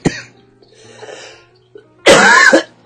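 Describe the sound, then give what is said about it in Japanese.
Coughing during a recording session: a sharp short burst at the start, a stretch of faint breathy noise, then a loud, harsh cough lasting about half a second near the end. “なんで収録始まったら嫌がらせのように咳するか。さっきまで咳してなかったのに。”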